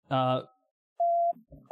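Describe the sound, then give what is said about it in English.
A starship's communications beep sounds during a role-playing game, heard as two short, steady mid-pitched electronic tones. A brief voice sound comes first, and a few softer low sounds fall between the beeps. “a communications beep. And it's louder. It's louder than the S's is normally, so it kind of makes the captain irritable.”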